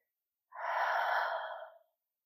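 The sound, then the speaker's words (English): A single deep inhaled breath during a guided calming exercise. It is soft, airy and steady, lasting over a second before trailing off into silence. No talk. “I want you to take a deep breath. We're going to do another one. Deep breath.”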